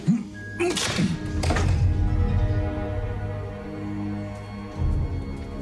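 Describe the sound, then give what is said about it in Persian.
Metallic clanks and a rattle as someone tries to open a locked lock. Two sharp clunks come near the start over a low, steady drone. “این یکی قفل. سعی میکنم بازش کنم.”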